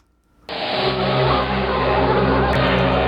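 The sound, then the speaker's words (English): Vorlon machine sound effect: after a half-second of quiet, a loud, steady, droning mechanical roar starts abruptly and holds to the end, with a deep rumble beneath a broad hiss and a brief dip near the close. “I'm going to enjoy my new Vorlon machine on the soundboard.”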